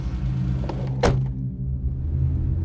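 A car carrying passengers along a federal highway gives a steady, low engine and road rumble throughout. A single sharp click or knock comes about a third of the way in, and no voices are heard.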